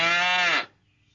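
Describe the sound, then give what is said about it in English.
A single loud cow moo, a steady low bellow with rich harmonics that holds for about half a second and then stops abruptly, followed by silence. “Cows moo.”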